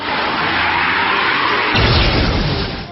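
Wing Slash attack effect in a turn-based creature battle video game: a loud, sustained rushing hiss, then a heavier low burst about two-thirds of the way through, easing off just before the end.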